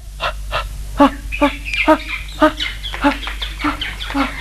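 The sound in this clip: A large flock of ducks calling, with many loud nasal quacks repeating in an uneven rhythm over a steady low hum.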